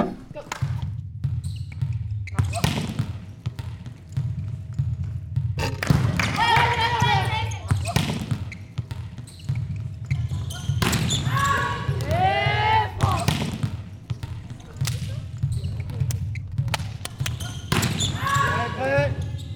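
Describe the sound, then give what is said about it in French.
Volleyball impacts, the ball striking the floor or defenders' forearms during play, come as many sharp slaps and thuds scattered among voices calling out throughout. “Et je pense qu'on entend vraiment le ballon qui tape au sol ou alors qui tape sur les avant-bras en défense, par exemple.”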